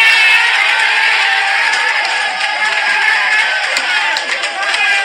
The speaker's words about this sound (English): So here's the celebration sounding from the Phoenix Suns locker room after they whipped up on the Los Angeles Lakers and LeBron.